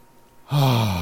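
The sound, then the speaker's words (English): A deep breath is drawn in through the nose during a calm breathing exercise. After a quiet half-second it begins suddenly and loudly, then holds steady to the end with a faintly voiced, sigh-like tone. “I just took a pause, short pause, so I could take a deep breath. Take a deep breath in through the nose.”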